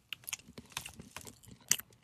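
Chewing and crunching of a dense, compact, non-porous chocolate. A few crisp bites come first, then softer chewing, with one sharp crunch near the end. No one speaks.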